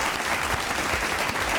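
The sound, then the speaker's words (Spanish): Brief burst of audience applause, a standing ovation for a guest on a talk show: even, dense clapping that stays steady and moderately loud for its short duration. “Me uno esos aplausos. Dios mío, qué aplauso.”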